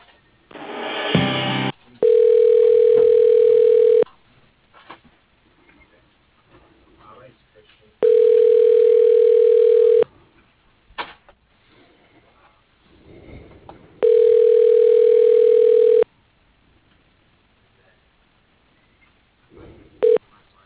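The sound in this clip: Telephone ringing tones sound during a call transfer: three long, steady, mid-pitched tones of about two seconds each, evenly spaced by quiet gaps with faint line noise, after a brief burst of noise at the start.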